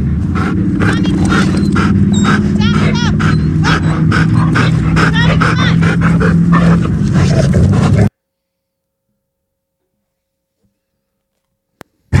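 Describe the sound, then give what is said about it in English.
A leashed puppy barks and yips while being bullied by other dogs, a loud continuous tangle of barks and whimpers lasting about eight seconds before cutting abruptly to silence. “Puppy is getting bullied here, and me having her on leash is allowing it, so I let her go to defend herself.”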